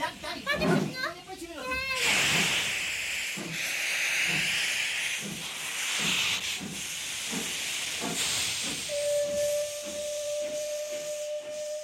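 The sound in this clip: Steam hisses from a steam locomotive in a continuous broad rush, with children's voices chattering and calling over it; a steady whistle tone sounds near the end.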